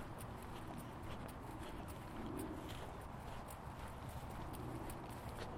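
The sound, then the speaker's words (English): Footsteps of a walker heading across open countryside toward a wooden plaque, a faint, steady series of soft, evenly spaced steps against a quiet, hissy background. “I'm just going to have a walk over there and have a look at this.”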